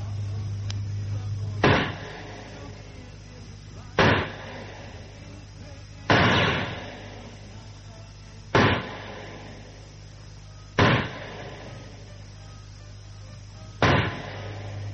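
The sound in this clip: Six sharp gunshots ring out in a target shooting match, evenly spaced a couple of seconds apart. Each loud crack decays quickly over a low, steady hum.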